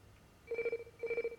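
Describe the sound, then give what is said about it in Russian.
A telephone ringing in a film scene, two short trilling bursts, each a rapid warble of pulses, moderately loud over a quiet background. “Варламов отвечает на звонок на экране Сафронов”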